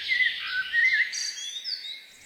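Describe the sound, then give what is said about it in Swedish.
Birds sing at night in a continuous stream of bright, high chirps and quick trills that overlap and flutter, with no voices present. “Då ska vi få njuta av ännu en fågelsångsnatt.”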